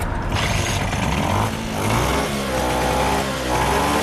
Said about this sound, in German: Die Vespa läuft wieder und hängt gut am Gas.